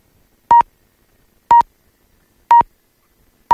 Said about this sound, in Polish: Ten sygnał oznacza, że jest 9:00.